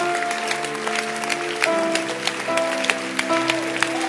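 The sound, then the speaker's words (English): Church audience clapping hands: a run of sharp, fairly regular claps over sustained tones of music, at a steady moderate level for about four seconds. “I said you are in church. Clap your hands that you are in church.”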